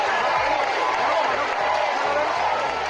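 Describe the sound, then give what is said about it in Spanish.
Crowds in Ceuta cheer King Felipe VI and Queen Letizia of Spain, a dense, steady roar of many voices with no breaks. “El rey Felipe VI y la reina Doña Leticia han sido aclamados por miles de ceutíes.”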